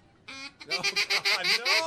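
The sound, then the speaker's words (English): A person blows a duck call, producing fairly quiet nasal quacks: one longer opening note, then a quick, rhythmic series of shorter honking quacks. “Now we're going to finish up with a couple of duck calls. Let's get can you do a duck call? I used to duck hunt. You want to try it. Try it out.”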